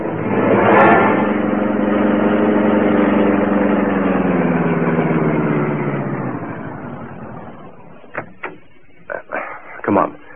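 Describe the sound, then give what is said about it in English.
A car driving off, its engine droning steadily with a low, even hum that fades away over several seconds, followed by a few sharp knocks. “Step on it. Drive to the Big Cost Apartments.”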